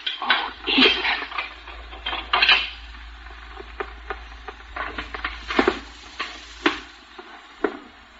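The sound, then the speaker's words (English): A pickle dish breaks with a sharp crash and clatter of crockery, followed by a scattering of smaller clinks and rattles that trail off unevenly, with no talk. “I want to know who done this. I want to know who broke this pickle dish.”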